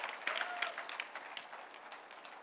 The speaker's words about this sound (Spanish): ¿Cuántos dan un fuerte aplauso al Señor?